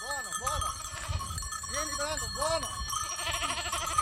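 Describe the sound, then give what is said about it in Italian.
Cashmere goats bleat again and again: several overlapping calls with a wavering, arched pitch, fairly loud against a steady background. “La scelta è caduta sulla capra cashmere perché è una capra molto rustica.”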